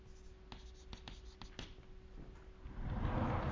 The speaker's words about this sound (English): Well, not in this one, but let me draw it like this.